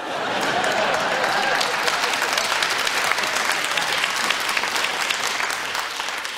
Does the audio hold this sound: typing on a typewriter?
no

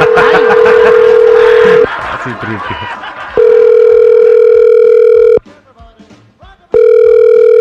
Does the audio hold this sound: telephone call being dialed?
yes

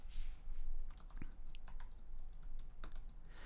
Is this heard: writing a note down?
yes

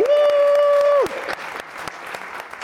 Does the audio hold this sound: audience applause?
yes

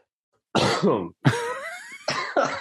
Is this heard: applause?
no

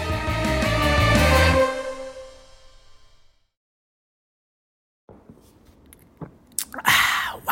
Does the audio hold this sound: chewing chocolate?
yes

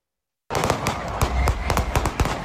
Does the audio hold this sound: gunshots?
yes

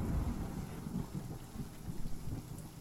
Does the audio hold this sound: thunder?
yes

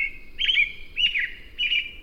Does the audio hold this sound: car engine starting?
no

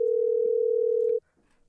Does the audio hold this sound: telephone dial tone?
yes

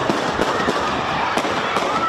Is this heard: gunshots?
yes

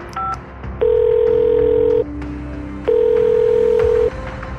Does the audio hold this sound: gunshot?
no

